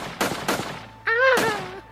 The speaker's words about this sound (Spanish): Los soldados empezaron a disparar a los tipis.